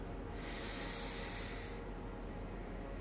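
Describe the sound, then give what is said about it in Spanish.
A person inhales deeply during a guided breathing exercise: a faint, steady, airy hiss that lasts about a second and a half, alone, then fades. “Vuelve a inhalar.”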